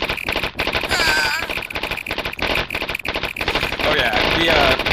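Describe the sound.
Gunfire rattles through a real-time strategy video game battle, loud dense bursts of rapid machine-gun fire running almost without pause.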